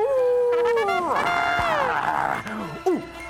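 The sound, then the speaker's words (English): Performed howl of a cartoon werewolf at the moon: a long wavering cry that swells, breaks into a rougher, broader wail, then trails into short yelping whimpers, loud and alone. “At the sight of the moon, our lovable Sherman Fangsworth, whom we know as Fangs, always turns into Fangface, a weird and wacky werewolf.”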